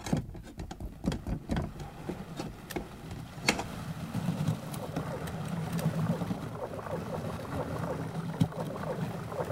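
Submarine engine stopping and ballast tanks flooding: a few sharp clunks and knocks at first, then a steady, loud, rushing low rumble of water that continues to the end.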